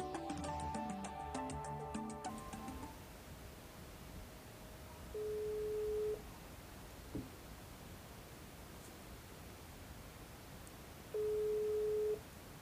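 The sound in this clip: Two long, steady ringback tones sound about six seconds apart over a constant hiss as a phone call to a friend is placed, after a brief burst of tonal music at the start.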